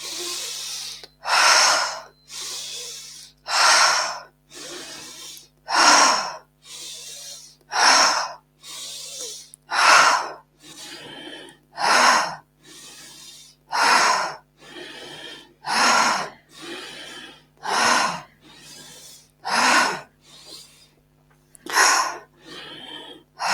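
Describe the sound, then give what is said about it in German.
Forced deep inhalations alternate with relaxed exhalations in a breathing exercise, keeping a steady, even rhythm through many breath cycles with no talk. “Mach weiter und finde jetzt einen Rhythmus, der für dich passt. Vielleicht möchtest du ein bisschen schneller werden, vielleicht aber auch langsamer. Richtig forcierte, tiefe Einatmung, lösende Ausatmung.”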